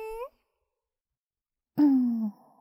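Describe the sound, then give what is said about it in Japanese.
A long breath is blown out as a voiced sighing exhale, drifting slightly downward in pitch. A short voiced sound comes before it, separated by a pause of silence. “最後にもう一回息ふうしましょうね。”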